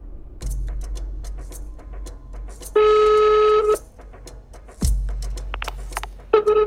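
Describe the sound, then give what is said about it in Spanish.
A telephone being dialed to call someone back after a dropped call: a run of short clicks and keypad beeps, a steady line tone of about a second, more clicks, then the tone returning at the end. “Aquí la llamada se corta. Así que lo vuelvo a llamar.”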